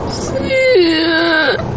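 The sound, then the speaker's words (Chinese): A person cries in one drawn-out, whimpering wail that holds a steady pitch, drops lower partway through and lifts slightly as it fades, fairly loud throughout. “你别哭啊！ 你咋了？”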